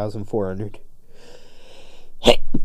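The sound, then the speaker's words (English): A held-in sneeze bursts out sharply after a short stretch of talking, followed by a smaller second puff of breath. “Oh, I hold in my sneezes.”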